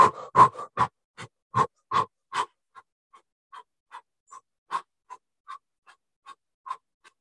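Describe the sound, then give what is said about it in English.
Rapid breathing in and out through the mouth, many short, rhythmic puffs of air, stronger at first and then softer and more even, with no talking. “Big breath in. And then in and out through your mouth,”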